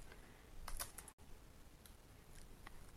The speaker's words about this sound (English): sometimes, like, my, I'll type W-A. Let me show you.